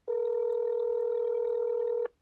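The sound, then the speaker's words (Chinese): A telephone tone sounds while a call to a public enquiry line fails to connect. It is one steady, unbroken electronic tone lasting about two seconds, then it stops abruptly. “记者又按照这名工作人员的提示拨打了对外咨询的电话，但电话始终无法接通。”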